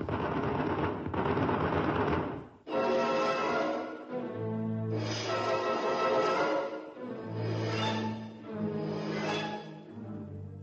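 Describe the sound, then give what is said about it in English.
Machine-gun fire in the woods at night comes in several rapid, clattering bursts separated by short pauses, with a low humming drone beneath the later bursts. “Quick, they're behind us. Turn the machine gun. Got him. No, they got away. Look, look there in the trees. Fire, man, fire!”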